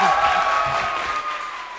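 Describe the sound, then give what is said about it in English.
Applause from a committee-room audience of young immigrants bursts out after a 7–3 vote passes legislation to help them pay for college. The clapping is brief and dense and sounds like a crowd. “I made this recording almost a year ago, and these dreamers were applauding legislation designed to help them pay for college.”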